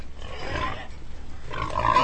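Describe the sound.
Pigs grunt in rough, low snorts that come in a couple of short bursts. The grunts are fairly faint and heard alone, with no talk.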